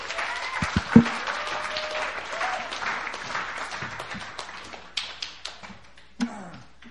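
A church audience applauds to welcome a preacher to the stage with fairly light, uneven clapping. A few sharper claps and thumps stand out, with brief vocal sounds mixed in, and the applause thins toward the end.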